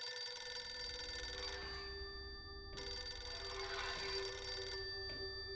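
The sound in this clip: A telephone rings beside the bed of a sleeping woman, a bright electronic ringtone sounding in long ringing bursts separated by short pauses, fairly loud and with no voices.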